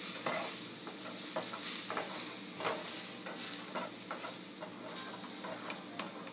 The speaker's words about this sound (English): Cooking up some of the sweet potatoes I got.